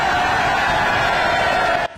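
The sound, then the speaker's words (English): A crowd in Clacton screams and cheers for Nigel Farage on election-count night. The roar is loud and continuous for about two seconds, then cuts off abruptly. “You can see that trademark laughing smile of Nigel Farage there to a screaming crowd.”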